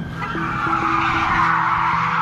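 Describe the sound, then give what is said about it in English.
Car tires screech loudly and continuously during a police chase of a blue Toyota Corolla, while a steady siren tone holds underneath the harsh, sustained skidding noise. “You can hear a siren and tires screeching in the background.”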